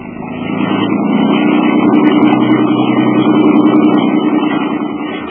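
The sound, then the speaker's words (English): Motorboat engine droning steadily on the way out to a yacht anchored offshore. The loud, continuous, even hum swells in at the start and eases slightly at the end. “I took a motorboat out to Elliot's yacht”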